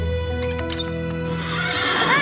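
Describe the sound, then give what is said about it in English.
A horse neighing, a high wavering whinny that rises near the end, heard over a steady low hum with faint hoof clops earlier on. “I saw a horse at the Rathbone place. I stopped to take a look.”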